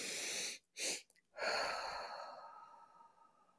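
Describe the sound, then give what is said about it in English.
A physiological sigh: two quick, breathy inhales in close succession, then one long, steady exhale that slowly fades. The breaths are alone, with no talking. “you're filling up your lungs with the first breath and then working a little harder to make sure they're completely filled with that second quick breath. And then you are exhaling. A longer exhalation.”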